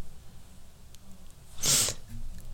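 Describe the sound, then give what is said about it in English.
A person's single sneeze, a short hissy burst lasting well under half a second, stands out sharply against a faint low background hum, with no talk around it. “Oh my goodness, I just had a sneeze when I talk about dust.”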